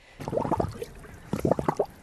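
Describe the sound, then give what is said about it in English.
Water gurgles and splashes as sample bottles are filled and rinsed for water testing, in two short clusters of wet, bubbling bursts with a brief quiet gap between them. “So we just fill up these bottles, give it a rinse a couple of times.”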